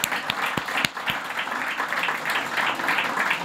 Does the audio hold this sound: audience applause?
yes

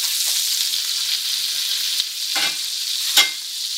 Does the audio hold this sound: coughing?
no

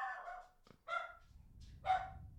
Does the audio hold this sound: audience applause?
no

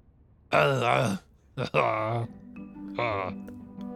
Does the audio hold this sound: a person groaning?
yes

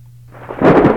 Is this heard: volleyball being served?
no

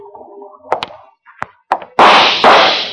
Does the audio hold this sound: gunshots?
yes

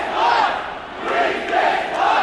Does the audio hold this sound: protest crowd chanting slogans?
yes

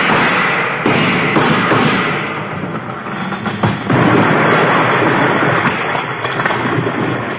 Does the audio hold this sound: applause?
no

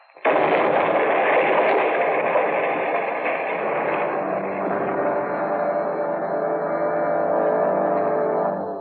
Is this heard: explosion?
yes

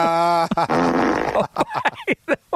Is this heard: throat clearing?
no

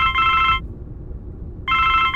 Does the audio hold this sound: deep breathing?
no

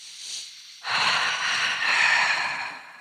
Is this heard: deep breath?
yes

